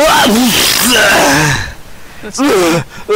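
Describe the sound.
A voice imitates vomiting, producing loud, strained gagging and retching vocal bursts that come out more like a sneeze: a long wavering retch, a pause, then a shorter sharp burst.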